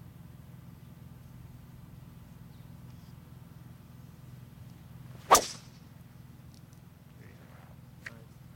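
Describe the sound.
A golf club strikes a ball on a cut drive during a tournament round, giving one sharp, loud crack over a low, steady hum, followed later by a faint tick.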